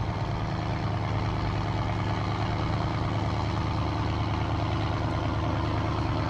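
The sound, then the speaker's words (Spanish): A small blue and white boat's engine drones steadily, a low, even mechanical rumble holding at constant loudness throughout with no break. “Mamá Poca Pesca arranca el pequeño barco azul y blanco”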